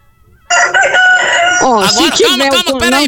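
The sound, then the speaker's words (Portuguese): A rooster crows once after a brief quiet start, a loud, long call that ends in wavering, warbling tones. “É que o galo tá cantando aí de fundo, mano. O galo tá aqui perto de mim”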